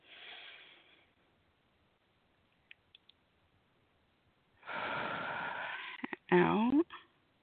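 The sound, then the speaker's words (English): Deep breaths drawn in and let out during a guided relaxation exercise: a few soft, airy rushes of breath, the longest lasting over a second, with quiet gaps between them. “So let's take several deep breaths.”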